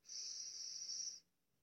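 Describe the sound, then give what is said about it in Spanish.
One long, steady breath, drawn as a guided breathing exercise: a smooth airy hiss that holds evenly for about a second before stopping, heard alone. “Bueno, antes vamos a inhalar y exhalar. Otra vez, inhala”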